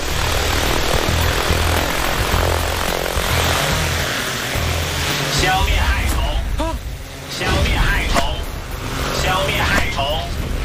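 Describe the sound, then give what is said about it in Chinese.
Buzzing, propeller-like engine whir of a toy airplane taking off, a steady, loud drone with voices over it. “玩具飞机有办法了，起飞。”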